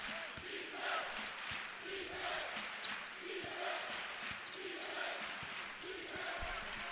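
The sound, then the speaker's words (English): Basketball dribbled on a court during a college game, a steady series of thudding bounces at a regular pace over a constant murmur of crowd noise. “Life Pacific just kind of dribbling around the perimeter.”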